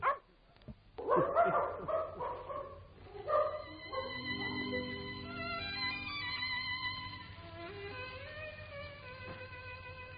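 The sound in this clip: A dog barking in a few sharp, yelping bursts over the first seconds, followed by long drawn-out tonal whines at lower volume.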